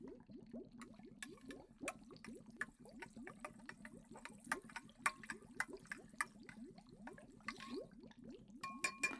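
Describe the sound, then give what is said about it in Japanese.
Stirring a mixture in a bowl: many quick, rhythmic scraping strokes with occasional light clinks, faint and continuous. “さらによーくかき混ぜてっと。”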